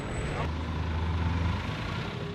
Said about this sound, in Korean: 트럭을 개조한 까미오는 일종의 시외버스인데요. 목적지를 확인 후 탑승합니다.